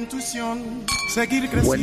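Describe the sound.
Glasses clinking together in a toast, a few bright chiming rings mixed with a voice and other tones.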